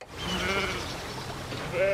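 Sheep bleating in the grazed meadows of a southern English country estate: one wavering bleat early on and another sharper, higher one at the very end, both over a steady low murmur.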